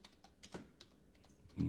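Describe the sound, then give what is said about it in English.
Typing on a computer keyboard with one hand: a series of light, irregular key taps, faint and unhurried, with uneven gaps between strokes. “I can type pretty fast with one hand”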